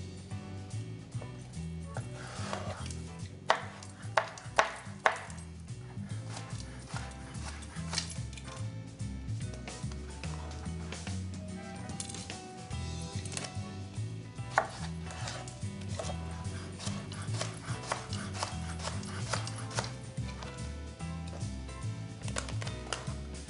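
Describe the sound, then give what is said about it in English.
A knife cuts eggplant on a board with many faint, fairly regular chops and taps, continuing steadily throughout with a few slightly sharper strikes. “Now that the eggplant is all cut”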